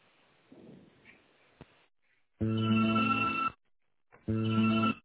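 Telephone ringback tones sound while a call is transferred to an assistant. Faint handling noise and a click come first, then two loud, steady buzzing rings separated by a short silence.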